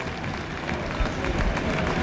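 Stadium crowd applauding during a Real Zaragoza versus Cartagena football match attended by about 15,000 spectators, heard as a steady wash of broad crowd noise and scattered clapping that swells slightly toward the end.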